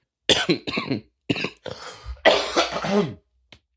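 A person coughs and clears phlegm from their throat in a rough series of harsh, wet coughs and throaty rasps, ending with one faint short cough.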